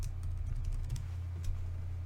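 Login credentials are typed on a computer keyboard as a series of quick, soft keystroke clicks. The clicks are faint and irregular, with a low steady hum underneath.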